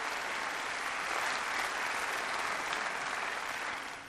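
Applause from an audience, a broad, even wash of clapping that holds steady for about four seconds before tapering off at the end.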